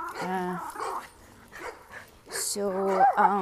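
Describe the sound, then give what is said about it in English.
A dog barking and whining at another dog in the neighborhood, with a few drawn-out tonal calls at the start and a louder, sustained run near the end. “that's my dog talking to his friend in the neighborhood.”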